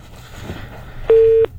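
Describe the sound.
A disconnected telephone line after a dropped call: one short, steady electronic beep lasting about a third of a second, rising above a low background hiss.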